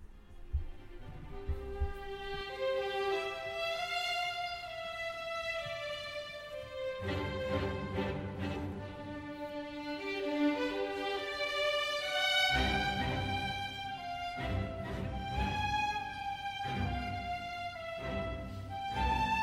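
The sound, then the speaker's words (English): An orchestra plays the recurring theme melody of a romantic symphony, a long-breathed sustained line that rises and falls over soft accompanying chords, moderately quiet, with fuller entries building through the passage. “The idée fixe in Symphonie Fantastique is symbolizing the artist's obsessive love for his beloved, and it sounds like this.”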